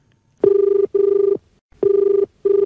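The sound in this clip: A telephone rings for an incoming radio phone-in call: four steady, evenly pitched electronic bursts in two pairs, loud and alone with no talk.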